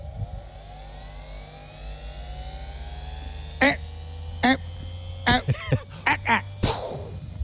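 A ball-launching machine starts up with a steady low motor hum and a slowly climbing whine, broken in the second half by several short, sharp bursts.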